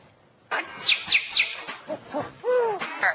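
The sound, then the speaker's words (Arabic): A parrot mimics strange sounds in a loud, varied run of chirps, high whistles and squawks with no talk over it, ending in a few swooping whistle notes. “اهو ده ببغاء، اهو بيقلد لنا اصوات غريبه”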